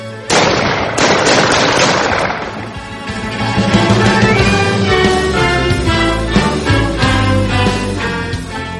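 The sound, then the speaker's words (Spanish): Loud gunfire from a gun fired repeatedly until the ammunition runs out, with dense, rapid cracking shots packed together most sharply at the start. Sustained droning tones run underneath throughout. “sin pensarlo comencé a disparar con mi arma hasta que terminé con la munición”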